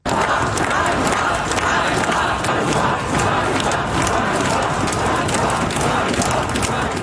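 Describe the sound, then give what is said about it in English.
Demonstrators in Kyiv, Ukraine, gather to protest the sacking of the country's defence minister. The crowd makes a dense, continuous roar of many overlapping voices and shouts, loud and steady throughout. “It's the sound of demonstrators in Kyiv today.”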